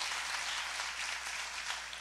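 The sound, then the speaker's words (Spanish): Congregation applause during a Spanish-language church sermon: a faint, even patter of clapping that holds steady from start to finish. “denle un aplauso a Dios, Dios mío.”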